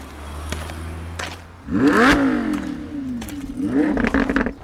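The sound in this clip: A Ferrari sports car engine revs in two loud bursts, its pitch climbing and then falling back, after a quieter low hum with a few clicks.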